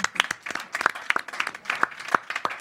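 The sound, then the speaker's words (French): Scattered applause from a small crowd at a gathering: loose, irregular hand claps, some sharp and prominent, others softer and overlapping, with no steady rhythm. “Bravo, on l'applaudit.”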